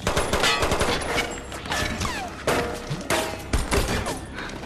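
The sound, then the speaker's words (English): Bullets hammering against armor panels in rapid bursts, with dense clattering impacts and metallic pings punctuated by sharp, loud spikes at intervals, like heavy automatic fire. “They flinch at the noise of the bullets hitting the panels. The armor's not gonna hold up.”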